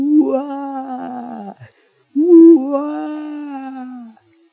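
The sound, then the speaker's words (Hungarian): A human voice imitates a distant, pained human howl: two long, drawn-out wailing cries separated by a short pause. Each cry is loud and holds a fairly steady pitch. “Emberi üvöltés volt, esküszöm.”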